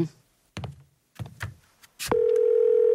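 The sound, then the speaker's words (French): A telephone dial tone sounds as a call is placed: a few dull knocks and clicks of the handset, then a steady, loud, low hum that holds to the end. “Je dois faire un appel si ça ne vous dérange pas.”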